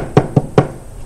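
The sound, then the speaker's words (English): Three sharp knocks on a door, evenly spaced in quick succession, then quiet. “And sure enough, one day the knock came on the door.”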